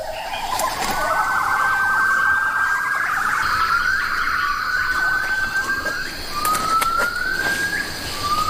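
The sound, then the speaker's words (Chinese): Hainan gibbons call at dawn in the Bawangling rainforest of Hainan. Their loud, clear whooping notes repeatedly sweep upward in pitch in a flowing series over a steady background hiss. “山间第一次清脆的欢叫声划破了整个雨林上空的寂静。这些被李文勇称为雨林歌王的海南长臂猿，他们一天的活动即将开始。”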